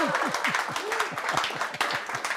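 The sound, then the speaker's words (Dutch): Audience clapping, a dense, steady patter of many hands that runs through the whole stretch, with a voice talking over it. “Nou moeten jullie klappen, ja?”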